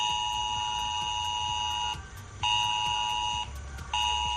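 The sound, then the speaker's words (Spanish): An emergency mobile phone alert warning of flooding in Tarragona or Castellón blares as a harsh, steady multi-tone beep, loud and alone, cutting out briefly twice before resuming. “Seguro que te suena ya, es la alerta que ha sonado en Tarragona o en Castellón.”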